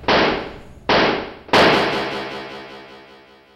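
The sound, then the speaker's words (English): Police gunshots in a radio drama: three loud, sharp bangs in quick succession, each trailing off in a long ringing decay, the last one the strongest and longest. “They shot me. Four times the leg, gut, and chest. Two in the chest and I didn't even have a gun.”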